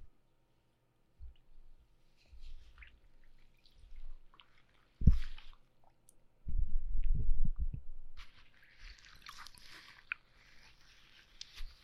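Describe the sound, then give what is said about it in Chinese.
Water drips and wet squelches while someone is given a bath: scattered soft drips, a few louder splashy bursts in the middle, then a faint watery hiss near the end. “我要过来帮你洗澡了。”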